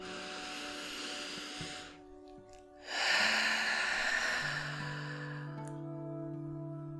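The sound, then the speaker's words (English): A deep in-breath drawn during a calm spoken affirmation, heard as a soft airy hiss, then a short lull and a longer, fuller inhale, over a quiet, steady musical drone. “Taking another deep breath in.”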